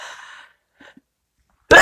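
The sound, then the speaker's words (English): One sudden sneeze that comes out of nowhere, a sharp, loud, noisy burst at the end following a few faint breathy sounds. “excuse me. Sneezes out of nowhere.”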